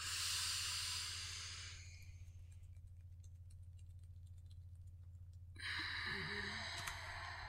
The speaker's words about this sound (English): Let's breathe.